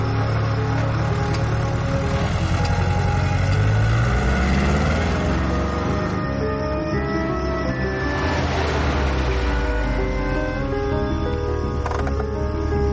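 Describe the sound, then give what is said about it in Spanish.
A car engine running as the car pulls away from a house at dusk, a loud, steady low drone whose pitch shifts and whose tone thins out over about thirteen seconds. “Al anochecer, Charlie sale de la casa de Oliveira, se monta en su coche y se marcha.”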